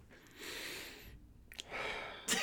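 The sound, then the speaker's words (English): A short deep breath: an airy inhale followed by a quick, breathy exhale, with a brief nasal burst at the end. “That was an awfully short breath for a deep breath.”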